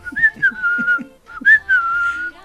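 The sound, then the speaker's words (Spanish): A person whistles a melodic tune while walking along a street on the way to work in the morning. Two bright, lilting phrases split by a brief pause, loud and clear with no talk. “mientras iba caminando, cantaba y silbaba”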